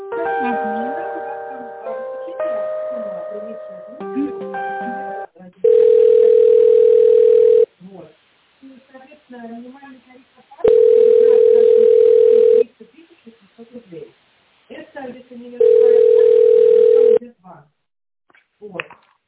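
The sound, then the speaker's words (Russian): Telephone line tones while a call is transferred: a short electronic hold melody, then three long, steady, loud mid-pitched tones of about two seconds each, with voices talking in the gaps between them. “Давайте я переключу на руководителя тендерного отдела.”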